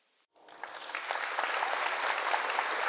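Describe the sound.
A crowd gathered in Madeline Square breaks into applause after a brief silence, the clapping quickly swelling into a dense, steady roar of many hands that holds to the end.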